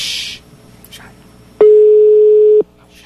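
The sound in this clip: Telephone ringing tone on an outgoing call: one steady, mid-pitched beep that holds for about a second, loud and even, after quieter noise and then a short silence.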